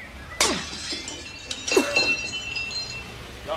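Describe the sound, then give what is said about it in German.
Glass shattering as a workshop window is smashed with a thrown paving stone: a sharp, loud crash of breaking glass, then a second burst of breaking and scattered tinkling shards. “Wir müssen das Werkstattfenster einschlagen und durchs Fenster einsteigen. Von da kommen wir dann in den ersten Stock rauf. Da ist ein Pflasterstock, schmeißen Sie den durch.”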